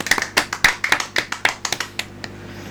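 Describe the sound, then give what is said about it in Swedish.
Hand clapping: a brief burst of many sharp, dry claps at an uneven pace, fairly loud with no voices, thinning out and stopping before the end. “Ja, men bara det förtjänar ju man applåd för. Ja, det gör de faktiskt.”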